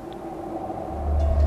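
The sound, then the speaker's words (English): An approaching train gives a low, steady rumble that swells louder toward the end. “There's a train coming!”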